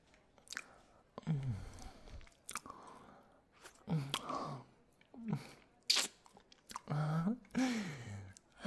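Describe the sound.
Wet chewing and mouth sounds of someone eating, a series of soft, squishy, irregular bursts with brief pauses between them.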